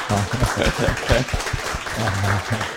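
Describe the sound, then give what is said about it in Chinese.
Audience applause at a lecture, a dense, steady patter of clapping that fills the whole stretch, with voices faintly audible underneath. “所以请大家热烈掌声谢谢他”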